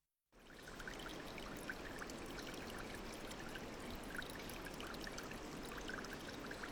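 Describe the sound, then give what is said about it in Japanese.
Water seeps from a wall and flows in a steady, even rush with a fine trickling texture. It starts abruptly after a brief moment of silence and continues unbroken, with no voices. “ひんやりとした空気、壁から染み出て流れる水。”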